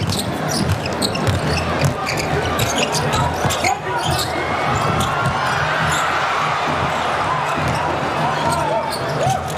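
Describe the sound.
Basketball bouncing during a game in which the Chinese team is playing, with rapid dribbles buried in a loud, constant wash of arena crowd noise and talk.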